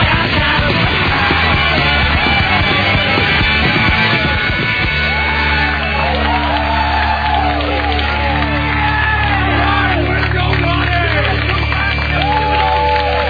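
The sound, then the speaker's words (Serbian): A crowd cheers and yells in a loud, continuous, distorted roar, with overlapping shouts and whoops rising above the din throughout. “Bože, koliko aplauza za da mali besplatni fu bar 2000.”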